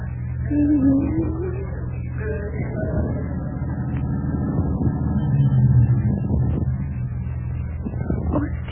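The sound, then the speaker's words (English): A car drives up with a low, steady engine rumble that grows slightly louder around the middle and then eases off. “somebody drove up while you were kissing me.”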